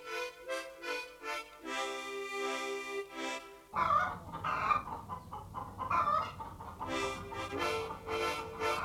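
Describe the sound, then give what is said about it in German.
Chickens cluck repeatedly on a meadow by a garden, a busy run of many short, clipped clucks and squawks, moderately loud and with no talk. “Sind meine Hühner bei Ihnen auf der Wiese?”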